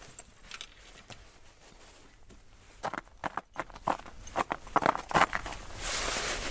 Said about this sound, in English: I put on my jingling micro spikes to do it.